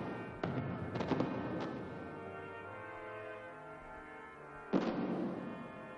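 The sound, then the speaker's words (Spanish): Fireworks over a town on the Fourth of July: a few sharp booms burst out, clustered early with one more near the end, over a sustained low tonal drone. Overall the sound is fairly faint. “El cielo se adorna de fuegos artificiales provenientes del pueblo.”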